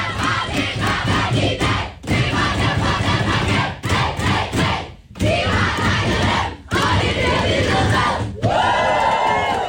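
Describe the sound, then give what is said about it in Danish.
The Danish women's national team cheers and shouts in their dressing room after a 4-1 win over Serbia that sent them to the World Cup in Brazil. The loud, rhythmic bursts of group yelling and chanting are broken by several brief pauses. “Lyden fra omklædningsrummet hos det danske VM-landshold.”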